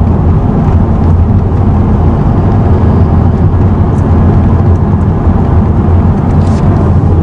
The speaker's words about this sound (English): there is a UPS truck going right down the road